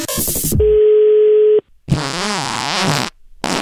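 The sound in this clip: A telephone call being dialled: a quick run of keypad beeps, then a steady, level tone lasting about a second. After a brief silence comes a buzzy, wavering sound.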